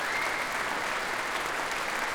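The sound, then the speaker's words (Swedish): Dense, continuous applause from a concert audience after an orchestral piece, honoring the orchestra's percussionists; many hands clap in an even, unbroken wash throughout. “Som nu är tillbaka på scen tillsammans med Emilia Hoving, som ger slagverkarna en extra rundas applåder efter det här stycket.”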